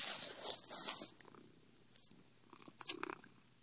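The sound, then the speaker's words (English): A pet cat purrs softly while lying on a person, a faint, low, steady hum. A few brief rustling bursts sound over it. “let me see if I can get her purring”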